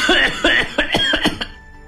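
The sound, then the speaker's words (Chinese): An elderly man coughing in a rapid fit of several harsh, raspy, voiced coughs that end abruptly and leave quiet behind. “老申公也许是因为过于激动了，或者是由于路程疲劳竟咳了起来”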